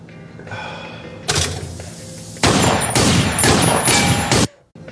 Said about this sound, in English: Then you see it smash cuts to two cops just firing wildly into the cab of the vehicle.